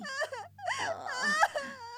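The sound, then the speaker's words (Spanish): A child cries in high, wavering wails, with a short sob, a brief pause, then a longer drawn-out moaning cry broken into shaky sobs. “No llores”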